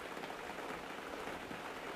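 Steady rain, a dense, even hiss of falling drops that holds at the same level for the whole stretch, with no talk and no separate louder splashes.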